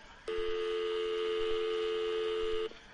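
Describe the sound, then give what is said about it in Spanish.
A single long, steady telephone tone sounds when the line is picked up to dial a call. It holds at an even pitch for about two and a half seconds, with no talk over it. “pues me da tiempo de hacer una llamada”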